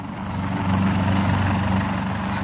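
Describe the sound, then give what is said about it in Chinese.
A helicopter drones with a steady low rotor and engine hum that swells slightly at first, then holds at a constant, fairly loud level with no voices over it. “系直升机， 系啊， 直升机！”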